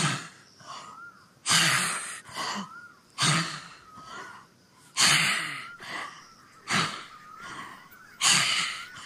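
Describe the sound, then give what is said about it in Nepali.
Deliberate breathing during a meditation exercise: loud, airy inhalations and exhalations alternate in a slow, steady rhythm. Each breath is a broad rushing burst, some with a slight nasal snort, and no talk is heard. “सास तान्ने, फाल्ने, सास तान्ने।”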